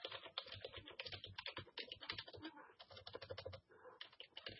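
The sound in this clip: Rapid typing on a computer keyboard while entering a comment, a dense, steady patter of many light keystrokes that runs almost without pause for the whole stretch.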